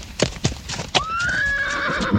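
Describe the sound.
Horse hooves clip-clop a few times on a sloping forest path in a nature reserve, then the horse lets out a long, high, wavering neigh that carries to the end.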